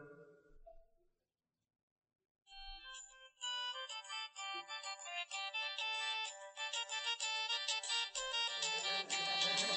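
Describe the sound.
A mobile phone ringtone plays a bright electronic melody of repeating tuneful notes. It comes in loud after a short quiet gap and holds steady to the end.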